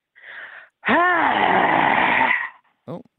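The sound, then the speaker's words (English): A person breathing out: a soft breathy puff comes first, then a long, loud voiced exhale with a moaning, groan-like tone, ending with a brief vocal sound. “More of a breathe out, but it's still a breath.”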